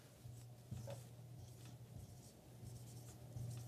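Writing on a board, with soft, faint scratchy strokes and rubbing in near silence, even and unhurried.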